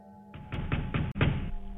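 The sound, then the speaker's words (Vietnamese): Heavy pounding on an old wooden door, a rapid, even series of deep, muffled thuds that hit hard and run together without pause. “Cánh cửa lúc này bị nó đập dồn dập. Tiếng đập cửa cứ thùng thùng vang lên.”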